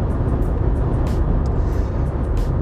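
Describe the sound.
Steady road rumble of a car driving on a highway, a dense, continuous low roar that holds an even loudness throughout.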